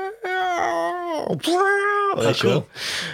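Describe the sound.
A human voice lets out a loud, primal, wailing cry, held in long howl-like tones. Two sustained pitched wails are broken by rough, breathy bursts, and the cry ends in a harsher strained sound.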